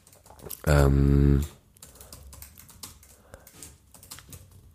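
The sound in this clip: Rapid typing on a computer keyboard during an online search: many light, quick key clicks in an uneven rhythm, broken early on by a brief, loud, sustained harmonic tone.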